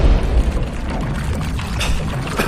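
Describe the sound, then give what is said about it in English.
A bomb being fired and exploding: a deep, loud boom bursts at the very start, then heavy rumbling noise rolls on steadily to the end. “Where did you get this bomb? Fire it!”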